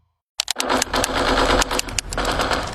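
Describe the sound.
Rapid gunfire from a video game bursts in after a brief silence, a dense, loud, continuous rattle of closely spaced shots that holds to the end.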